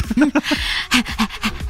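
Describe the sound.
A person imitates a dog panting with many quick, rhythmic, breathy huffs. Some huffs are lightly voiced, in uneven bursts with short gaps between them.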